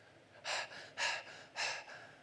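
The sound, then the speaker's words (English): Voice imitating heavy panting: three forceful, breathy exhalations in a steady rhythm, each a short rushing burst of air separated by brief pauses. “If you look it up, it literally means to pant.”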